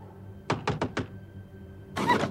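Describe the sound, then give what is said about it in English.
Four quick, evenly spaced knocks on a door. A short pause follows, then a brief, broader rustling burst. “A grey hand raps on the door.”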